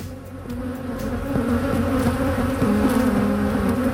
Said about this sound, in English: That's what it sounds like on the roof of the Avalon Mall now that honeybees have moved in.